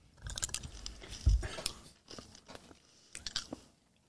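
Someone chews a blueberry-flavoured blue candy with faint, crunchy bites and chewing in a few uneven bursts, fading out at the end.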